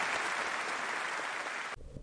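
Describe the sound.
Applause from an audience thanking two presenters after a talk and question round: dense, steady clapping that drops suddenly to a thinner, quieter patter near the end.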